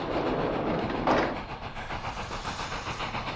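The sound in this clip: A train runs on rails with a steady, loud mechanical rumble and hiss. A faint rhythmic clatter of wheels runs through it, with no voices.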